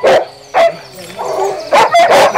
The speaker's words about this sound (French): Tous sont des Alaskan Huskies, une race croisée entre le Husky et d'autres européennes pour obtenir des chiens encore plus performants et plus obéissants.